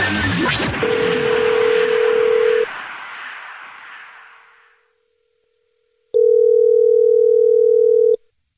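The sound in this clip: A telephone tone plays as a radio show calls a listener back: a steady tone runs under a fading burst of noise, then a louder steady tone sounds alone for about two seconds after a pause.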